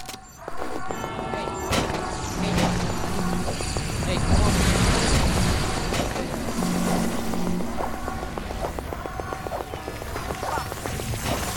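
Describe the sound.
Propeller aircraft droning in an air raid video game, a dense, continuous engine roar mixed with repeating game tones throughout.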